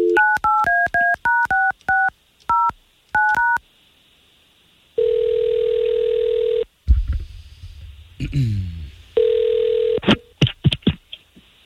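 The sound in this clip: Touch-tone dialing of a telephone call: a quick run of about ten short dual-tone beeps, followed by two long steady line tones with louder rumbling noise between and after them.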